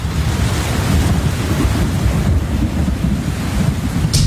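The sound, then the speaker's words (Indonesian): Steady, loud rain pouring down, a dense continuous hiss over a low rumbling roar, with no voices and no breaks. “Ya, hujan.”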